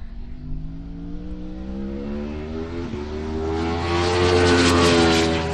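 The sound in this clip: A motorcycle engine accelerating on a track, its steady harmonic drone climbing gradually in pitch and swelling louder toward the end.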